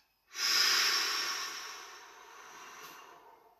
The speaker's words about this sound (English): Take a deep breath in right now. Fill your chest. And then breathe out